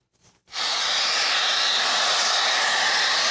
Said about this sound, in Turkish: Borudan basınçlı şekilde çıkan gaz metrelerce yükselirken yoğun ses nedeniyle ekipler kulaklarını kapatmak zorunda kaldı.